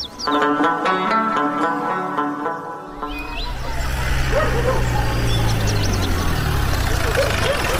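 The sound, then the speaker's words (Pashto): A car arriving, its low engine rumble setting in abruptly after about three seconds and then holding steady at an idle to the end, preceded by steady tonal sounds. “لکه چې پلوشی خپله کډه راوړه، د موټر غږ شو”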